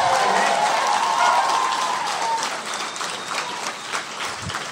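A live audience at City Winery in Chicago applauds, a dense, loud wash of clapping mixed with crowd noise that holds steady and then eases slightly toward the end.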